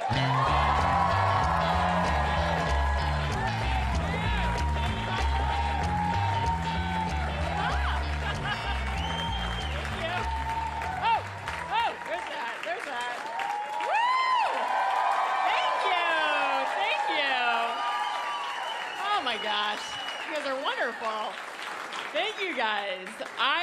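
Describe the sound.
Applause and cheering from a stand-up comedy club crowd at Gotham Comedy Club greeting a comedian, dense clapping with whoops rising above it and a pulsing music beat underneath for roughly the first half.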